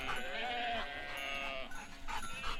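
A herd of sheep bleats while grazing in Sicily, with wavering, nasal bleats overlapping at low volume over a soft background hiss.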